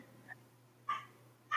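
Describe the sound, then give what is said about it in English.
Dogs bark in the background: a few short, faint barks with a pause between them, the last ones slightly louder, over a low steady hum. “Sorry, my dogs are barking, in case you guys hear it in the background.”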